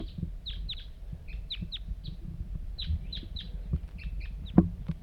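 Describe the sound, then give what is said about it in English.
A lone wild bird calling nearby: many short, high chirps in loose bursts over a low, rumbling background, with one sharp knock near the end. “pointed at the wild bird. Here it comes. One lone bird.”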